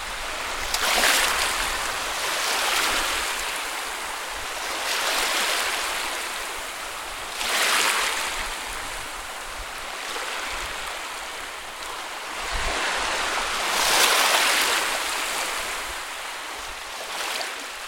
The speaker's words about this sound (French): Devant toi, il y a la mer.